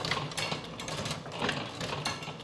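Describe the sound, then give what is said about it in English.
Mechanical clunks from a 140-year-old printing press stamping a card, a few rhythmic thumps and metallic clatter over a steady machine rumble, fairly faint. “The machine bites down and then opens up just long enough for him to simultaneously pull out the stamped card and slide another in its place.”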